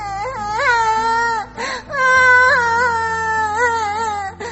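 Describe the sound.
A small child cries loudly in a series of wailing, sobbing bursts with rising and falling pitch, broken by brief catches of breath between cries.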